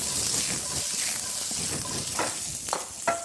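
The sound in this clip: Bratkartoffeln, German fried potatoes, sizzle in hot oil in a pan as they crisp golden brown. A steady hiss runs throughout, with a few sharper crackles near the end.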